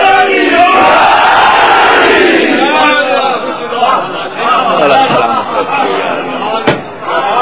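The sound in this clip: Crowd shouting a Pakistani slogan in unison, loud and massed at first, then breaking into looser chatter, with a single sharp knock near the end.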